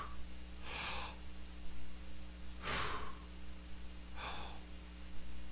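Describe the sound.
During a Good Friday sermon, a man's voice imitates the laboured breathing of a crucified person pushing up to exhale: three separate, airy, strained breaths spaced a couple of seconds apart.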